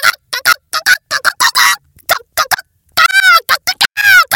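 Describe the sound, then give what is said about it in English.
A voice imitates a hen cackling loudly after laying an egg, with a long run of loud, high-pitched, rhythmic clucks in short bursts, some notes sliding in pitch. “To announce such important news, Henrietta Hen never failed to raise her voice in a high-pitched”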